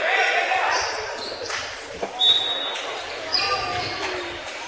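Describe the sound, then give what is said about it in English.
A basketball thumps on the court in a bounce pass during a game, a few dull bounces rising briefly above a busy background of voices and shoe squeaks. “Bounce pass to Thompson on the far corner.”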